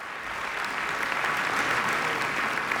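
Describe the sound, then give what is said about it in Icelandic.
Enthusiastic audience applause at the end of a piano concert at the Philharmonie concert hall in Luxembourg: a dense, steady wash of many hands clapping that holds an even, fairly loud level throughout. “Georgi var ákaft fagnað í lok tónleikana”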